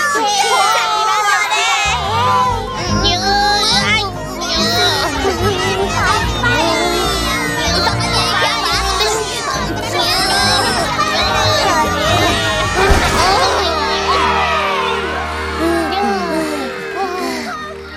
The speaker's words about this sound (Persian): ما رو تشویق میکنن چارلی بران. زود باشین، تسلیم نشین. آفرین چارلی بران.